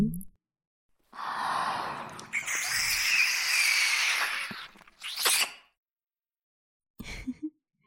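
A person breathes heavily, one long, breathy, sigh-like breath followed by shorter ones, with brief silences between them.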